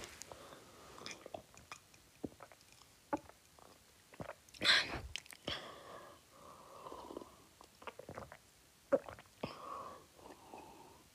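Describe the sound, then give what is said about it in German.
Drinking sounds from a person finishing a drink. Quiet, irregular soft sips, swallows and wet mouth clicks alternate with light breaths, with one louder gulp near the middle. “Jetzt kommt noch das Trinkgeräusch, wie, ähm, weil ich trinke es jetzt noch.”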